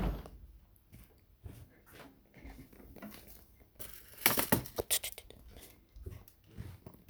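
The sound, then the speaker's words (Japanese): Aluminium foil being torn off and spread out for salting: faint rustles and taps, then a burst of bright, crisp crinkling midway, easing back into quieter handling noises. “ちょっとだけアルミホイル敷いて塩引きたいと思います。”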